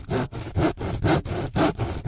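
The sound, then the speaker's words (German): A hand saw cuts wheels out of a wooden tree trunk, with about five even, rhythmic back-and-forth strokes of rasping wood, each stroke swelling and fading alone. “Schon bald sägt Umberto aus einem Baumstamm die Räder aus.”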